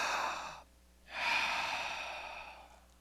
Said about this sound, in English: What if the opposite happens and you're under control? You take a deep breath,